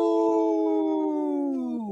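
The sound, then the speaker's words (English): A wolf howls, one of Minnesota's wild wolf population: a single long, smooth, harmonic note held steadily, slowly sinking in pitch and dropping more sharply at the very end, with no voices. “In this portion of the show, we like to bring awareness to our Minnesota wolf population.”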